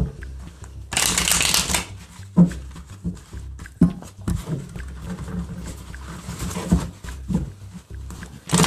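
Tarot cards being shuffled by hand for a love reading: a loud burst of dry riffling near the start, then steady papery rustling and scattered snaps that continue throughout.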